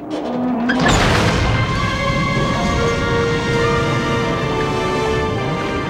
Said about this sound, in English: The bay doors blow open in a fiery explosion, sending milky white air bubbles spiraling upward.